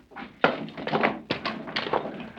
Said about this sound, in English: All right. Put those rifles down here.